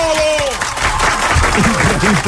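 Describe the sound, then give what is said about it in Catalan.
Audience ovation of applause and cheering after a performance, a dense, loud, steady wash of clapping and crowd noise that lasts throughout, with a voice speaking over it. “Bravo! Una ovació.”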